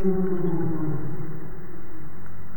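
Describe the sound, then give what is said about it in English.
A humpback whale vocalizes underwater in the protected waters of Juneau's North Pass, a continuous low, moaning call with wavering tonal bands that soften slightly toward the end. “That's the sound of a humpback whale in Juneau's North Pass between Lincoln Island and Shelter Island.”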